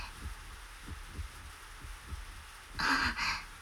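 A heartbeat sound effect: soft, low thumps pulse in a steady, quick rhythm, quiet and alone until a brief burst of hissing noise near the end.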